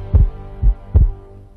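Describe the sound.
A heartbeat sound effect with three deep, low thumps at slightly uneven spacing, heard alone over a faint hum.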